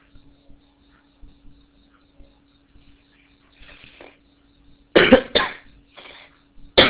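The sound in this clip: Coughing and throat clearing from a person with an itchy throat. Faint clicks and a soft throat clearing come first, then several loud, harsh cough bursts arrive in quick succession, followed by a fainter one and a final sharp cough.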